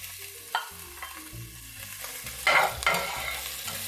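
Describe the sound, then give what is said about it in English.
Minced ginger sizzling in hot oil with garlic while being stirred in a pan, a steady crackling fry broken by scraping utensil strokes, growing louder midway. “Here goes my minced ginger. Stir that up.”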